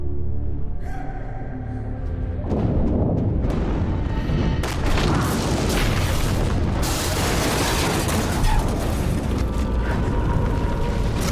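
A building collapses amid fire and falling masonry. Loud, dense roaring rumble and crashing debris are sustained throughout without a pause.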